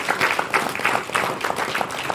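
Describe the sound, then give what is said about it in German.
Audience applause at a community tech event, a crowd clapping at moderate volume with a loose, pulsing texture that swells and dips several times. “Klatsch auf für Freifunk Stuttgart.”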